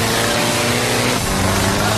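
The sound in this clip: A car engine roaring under heavy throttle on an uphill climb, a loud, dense and gritty drone that holds steady for the full two seconds without a break.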